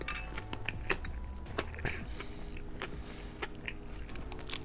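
Crunchy biting and chewing of food marinated in garlic, ginger, sake, soy sauce and salt: a run of sharp, moist crunches over a steady low background, with no talk.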